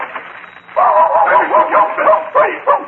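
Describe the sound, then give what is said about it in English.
A dog barks and yips in a rapid string of high, whiny barks with quick pauses between them, loud and continuous over a low background. “Dog away from me. Call him off.”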